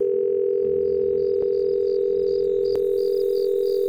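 A telephone dial tone plays after the receiver is lifted: a continuous, even, steady hum held throughout, broken only by two faint clicks.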